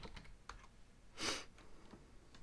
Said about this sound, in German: Muss mal eben ganz kurz schreiben.